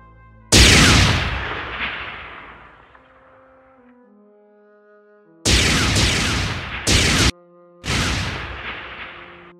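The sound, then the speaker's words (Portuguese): Gunfire and blasts in a shooting video game: four loud, booming bursts. The first trails off into a long, fading rumble with tonal game effects, and three more follow in quick succession near the end. “Vocês escutam os tiros.”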